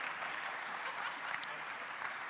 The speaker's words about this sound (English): that's pretty good to get a round of applause just for showing up